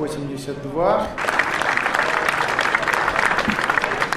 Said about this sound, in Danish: vi tager også med til Rusland, hvor det russiske parlament her klapper, fordi de har stemt for en række forfatningsændringer.